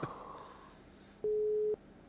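Telephone busy signal: one steady half-second electronic beep, clear and alone after a stretch of quiet.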